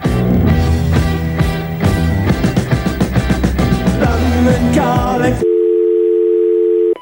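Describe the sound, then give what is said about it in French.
British telephone ringing tone: a steady mid-pitched electronic tone that starts abruptly after loud music ends and holds alone for the final stretch. “en Angleterre, en vrai, quand tu appelais ou quand on t'appelait, ça faisait ça.”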